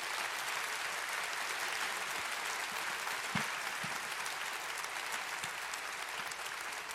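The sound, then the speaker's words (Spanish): A church audience applauds during a service, a continuous, evenly spread clapping at moderate loudness that holds steady throughout, with a few soft thuds scattered within it. “Sí, dale un aplauso y dáselo al Señor, por supuesto que sí.”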